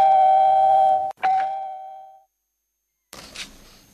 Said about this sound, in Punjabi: ਲਓ ਜੀ ਫੋਨ ਦੀ ਘੰਟੀ ਵੱਜ ਚੁੱਕੀ ਹੈ ਜੀ।